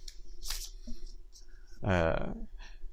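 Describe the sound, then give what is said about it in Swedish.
Riffle shuffling of a deck of playing cards by hand, the halves held in each hand and interleaved with thumbs and forefingers. A few quiet, papery, fluttering bursts are heard, and a voice speaks briefly. “Men när man tar halva kortleken i varje hand och sen med hjälp av tummar och pekfingrar blandar ihop dem”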